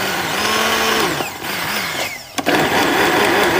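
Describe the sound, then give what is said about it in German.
A hand blender purées food with pasta water right in the pot, making a loud, steady buzzing whir that dips briefly and then surges back to full strength. “So, auf geht's. Wird jetzt püriert.”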